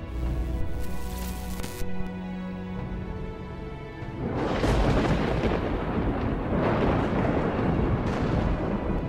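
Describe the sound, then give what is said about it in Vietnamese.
Thunder crashes and rumbles in a sudden sky storm, a loud, dense, sustained roar that starts about halfway through and holds to the end, after a few seconds of quieter low tonal sound. “Sấm chớp ở trên trời đánh lên đùng đùng đến đinh tai nhức óc.”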